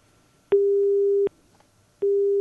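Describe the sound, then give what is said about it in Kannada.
A telephone busy tone after a call-in was cut off: two long, steady mid-pitched beeps, each lasting under a second, separated by a short silence, with no other sound. “ಅವರ ಕರೆ ಕಟ್ಟಾಗಿದೆ ಅಂತ ಅಂದ್ಕೊಳ್ತೀವಿ”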